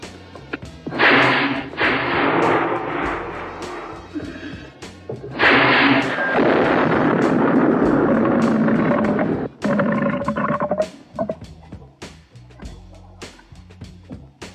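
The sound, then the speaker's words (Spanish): Ship engine starting up before setting sail: two long, loud bursts of broad roaring noise, the second settling into a lower rumble with a steady tonal whine before fading into scattered faint knocks. “¿Listos para zarpar? Listo, señor. Que preparen motor 1. Puente de mando. Preparen motor 1.”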